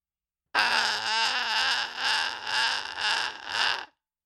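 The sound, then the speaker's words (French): Many girls crying at once: a loud, sustained chorus of high, wavering sobs and wails lasting about three seconds, swelling and ebbing in pulses, with no talk. “Ça, c'est 14 000 filles qui pleurent en même temps.”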